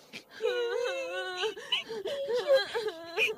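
Two young siblings cry through the night: quiet, wavering wails and whimpering sobs, one continuous stretch of crying with rising and falling pitch.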